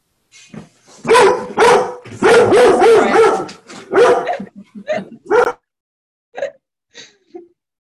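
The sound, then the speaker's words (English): A dog barks loudly and repeatedly in dense bursts of sharp, full barks, then thins out into a few scattered, softer yips and whines. “And that's my dog now started as well”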